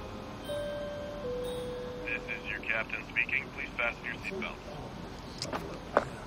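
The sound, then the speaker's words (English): An airplane flies over a snowy landscape, a steady low drone of flight under a brief tone near the start and a run of short, clicking high tones midway, with a sharp tick or two near the end. “The plane flies over a snowy landscape.”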